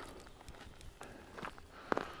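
Faint footsteps of a person walking while geocaching on a hike, many soft, irregular steps with a few sharper scuffs near the end, heard alone without talk.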